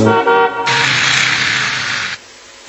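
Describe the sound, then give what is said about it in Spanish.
Car sound: a loud, tonal honk-like burst lasting about half a second, followed by a steady broad hiss for around a second and a half that cuts off abruptly. “¿Qué es? El auto se escuchó.”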